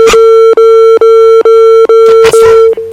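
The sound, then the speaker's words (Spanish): Telephone line tone after a dropped call: a loud, steady mid-pitched tone broken by brief, regular gaps about twice a second, with faint background noise underneath. “Se cortó la llamada. Se cortó la llamada. Yo creo que le picó al botoncito.”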